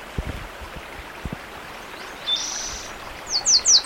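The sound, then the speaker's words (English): Warbler song: a short high-pitched trill, then a few rapid, bright high chirps over steady wind noise. A few low thumps sound early on. “The warbler singing.”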